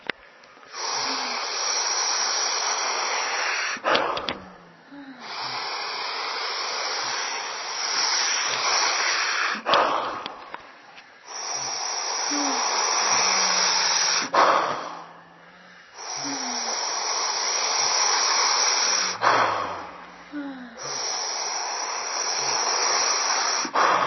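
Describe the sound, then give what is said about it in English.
Slow, deep breathing with long drawn-out inhales and exhales, airy hissing breaths of several seconds each, separated by short quiet gaps in a steady, unhurried rhythm. “Make the inhale long as you can. And feel every little detail as you're opening and expanding and stretching and opening. Then when the exhale comes, just snap it loose, dump it out, set it free.”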